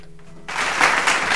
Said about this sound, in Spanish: Y las multitudes que aplauden.